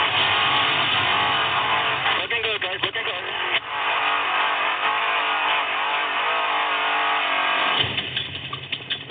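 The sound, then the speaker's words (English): Trophy trucks accelerate into open desert during an off-road race, their engines a loud, sustained, gritty roar that holds throughout. The engines wobble a little in the middle and surge again near the end. “Lopez sets the pace as he leads the trophy trucks out into the open desert. With nothing but open air in front of him, Abdali knows he needs to lay down on the gas, especially when race legend Rob McCaffrey”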